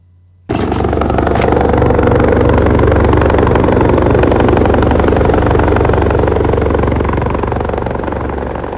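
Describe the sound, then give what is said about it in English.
Hovering helicopter sound effect from a radio play: a loud, steady rotor and engine drone that begins abruptly about half a second in and holds without pause to the end, with no voices. “I looked down from the hovering helicopter at the small figures of the troops on the ground.”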